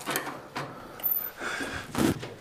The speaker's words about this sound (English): That door's a little stiff.